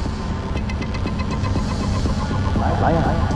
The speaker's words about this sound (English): Slowly, she rises, contemplating the vehicles whizzing past in each direction.